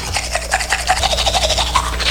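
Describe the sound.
A toothbrush scrubs teeth in quick, steady, rhythmic rasping strokes that run throughout at an even, fairly loud level, with a low steady hum underneath.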